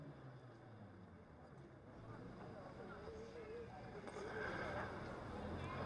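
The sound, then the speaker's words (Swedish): A vehicle engine revving as someone steps on the gas on a town street, a faint low rumble that swells louder in two steps, with faint voices present. “Ja, nu är det någon som ska gasa lite här också.”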